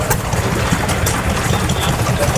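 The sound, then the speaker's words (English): A farm water-pump engine runs at a rural autumn show with a steady, dense chugging rumble and fast low pulsing. The hiss and throb stay even throughout with no pauses. “That one's really going for it. Yeah. They're all... pumps and systems for making farming easier.”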